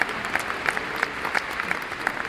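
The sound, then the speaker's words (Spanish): A crowd in a full school gym applauds, producing dense, steady clapping that stays even and continuous throughout, with no voices standing out. “Mira, el gimnasio está lleno y la gente no deja de aplaudir.”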